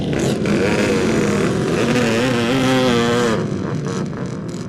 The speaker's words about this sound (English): Just to listen to the sounds of the machine leaving the holding area there